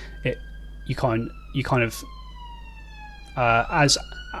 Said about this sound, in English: sorry, I've got a siren outside my window. It's very loud.